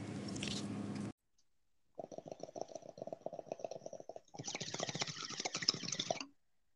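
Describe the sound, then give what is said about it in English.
A water pipe (bong) being smoked gives a short hiss, then rapid wet gurgling bubbles that grow louder and brighter before cutting off. “You hear the bong rip.”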